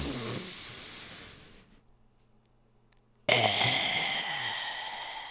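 Deep breathing taken in a hunched, rounded-shoulder posture during a breathing exercise: a long breathy rush fades into a brief silence, then a second, louder breath bursts in abruptly and trails off.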